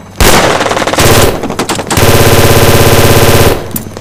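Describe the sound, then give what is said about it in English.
Machine gun fire erupts at a harbor among cargo containers during a firefight, loud and harsh, coming in rapid sustained bursts: two shorter bursts, then a longer continuous stream of shots, with no voices. “Shots fired.”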